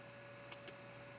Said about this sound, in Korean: 마우스 오른쪽, 네, 마우스 오른쪽 눌러서